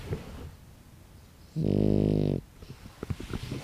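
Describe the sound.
A sleeping dog snores with a single loud, buzzing, low rumble lasting under a second, set between softer breathing and small scattered rustles.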